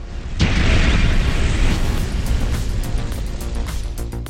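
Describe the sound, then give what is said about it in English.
A bomb explodes in an office, a sudden loud blast followed by a deep, roaring rumble that slowly fades over the following seconds. “For half a second, nothing happens. And then the bomb explodes.”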